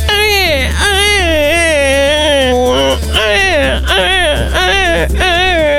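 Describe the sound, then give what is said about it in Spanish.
A man's voice imitates a crying baby with loud, wavering wails that come in several rising and falling bursts, broken by short catches of breath over a steady low hum. “Qué gran imitador que soy. Es increíble, chicos. Si ustedes cierran los ojos, realmente están viendo un bebé.”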